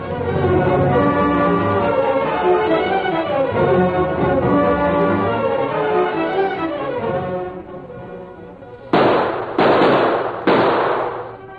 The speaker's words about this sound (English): As the sun sank lower, the contest went on. Tombstone tried every trick shot he knew, but the Lone Ranger matched every one